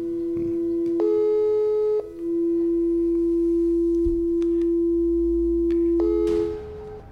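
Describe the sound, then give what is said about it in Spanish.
A telephone ringing tone during an outgoing call: a steady electronic tone runs throughout, brightened twice by brief, harsher tone bursts, and ends in a short burst of noise. “Ahí está sonando el teléfono de Marco Benítez.”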